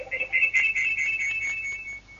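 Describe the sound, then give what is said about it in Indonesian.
An electronic telephone ring from an incoming call to a phone-in program: a steady, high warbling tone with brief breaks that runs for about two seconds and fades slightly at the end, with no talk over it. “sudah ada penelpon yang masuk, kita angkat.”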